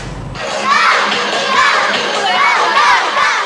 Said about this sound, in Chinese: 每天课间时分，四川成都市沿道街小学东区的操场上都热闹非凡